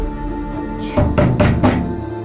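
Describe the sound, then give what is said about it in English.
Violent kicks and heavy blows strike a door, making it shudder. After a quiet start come four hard, booming thuds in quick, uneven succession, with no voices. “The door shudders. Heavy blows. Hard, violent kicks.”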